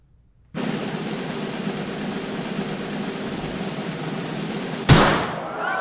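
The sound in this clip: A single gunshot sound effect marks a stage shooting in a magic act in an audio drama. One sharp, loud crack with a short decaying tail comes after several seconds of steady hiss.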